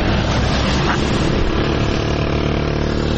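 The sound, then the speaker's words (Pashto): Engine noise at a vehicle station in Tirinkot city serving the Uruzgan–Kandahar road: a loud, steady, continuous rumble with a low droning hum and no breaks. “دا په ترینکوټ ښار کې د اورزګان او کندهار د لیلارې د موټرو تمځای دی.”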